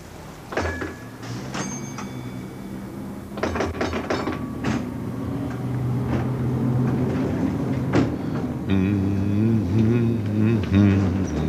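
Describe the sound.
Mechanical clunks and switching noises come from a tram railcar as it is started and driven away. A steady motor hum builds beneath them and grows fuller toward the end.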